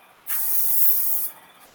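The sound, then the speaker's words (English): An oil primer paint sprayer fires a test pattern onto a pull-down spray pattern sheet: one steady, loud hissing burst of about a second, with a sharp start and stop and no talk. “We have our pull down spray pattern creator here. So this one happens to be already done because this is our primer, our oil primer sprayer.”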